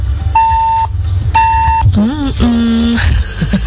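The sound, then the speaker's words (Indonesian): A WhatsApp message notification sounds as two steady electronic beeps of the same pitch, each about half a second long, followed by a voice speaking. “Kenapa tuh? Ada WhatsApp nih, kita bacain dulu ya.”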